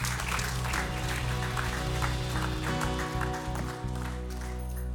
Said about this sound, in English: Put your hands together. Welcome him.